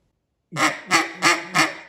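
Four nasal quacking notes blown on a cut-down duck call, evenly spaced in a steady rhythm after a moment of silence, each note loud and reedy.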